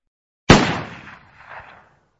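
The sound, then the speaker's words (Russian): A single deafening pistol shot rings out in an enclosed tunnel. The sharp crack is followed by a long, rumbling reverberation that swells again briefly before fading out. “а в его руке появился пистолет и оглушительно для замкнутого помещения грохнул, а стены туннеля, как мощные резонаторы, многократно усилили звук.”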